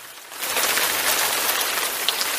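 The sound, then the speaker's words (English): Steady heavy rain falling, a dense, even hiss that swells after a brief quieter opening and then pours on unbroken. “Thank God for the rain.”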